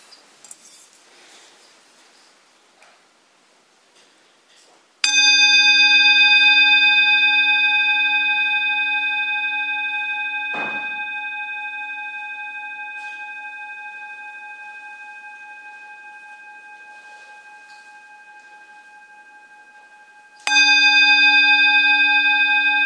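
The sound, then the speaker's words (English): A meditation bell is struck at the start of a dharma session. There are two clear strikes: the first rings out and slowly fades over about fifteen seconds, and the second sounds near the end after quiet low noise at the start. “let's start by listening to the sound of the bell.”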